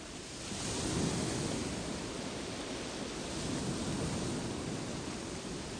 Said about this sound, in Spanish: Y vuelves otra vez al sonido de las olas, y exhalando la ola rompe sobre la arena.